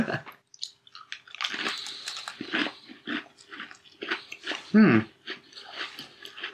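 Irregular crisp crunches and chewing come from someone biting into a shard-breaking chocolate cookie. The sounds are a series of short crackly bursts of varying loudness with brief pauses.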